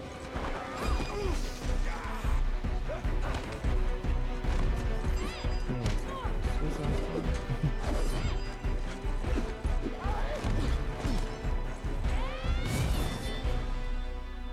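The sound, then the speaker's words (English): Video game final boss battle sounds: loud whinnying cries, crashing smashes and thwacks, and hoof-like clattering in a dense, continuous stream. “Video game. Final boss battle.”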